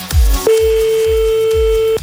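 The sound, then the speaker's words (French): Telephone line tone as a call is placed during a prank-call game: one steady mid-pitched tone holds for about a second and a half, with low rhythmic thumping music underneath. “On y va, on appelle un autre.”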